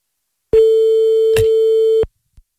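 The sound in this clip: A telephone ringback tone sounds while a call is placed to an unknown number: one long, steady, mid-pitched buzzing tone that lasts about a second and a half, then stops, followed by a faint click. No voices.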